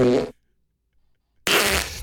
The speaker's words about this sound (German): Das ist eine Stunde lang Furz.